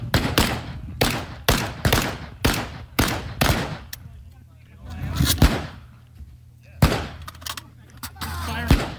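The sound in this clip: Gunfire at a shooting range during a timed drill: many sharp, loud shots. A quick string of shots comes first, then a pause, then a few more spaced shots.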